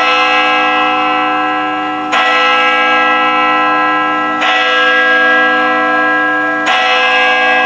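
Church bells tolling: loud, deep strokes about two seconds apart, each one striking sharply and then humming on in a long, rich, sustained ring that fades slowly before the next.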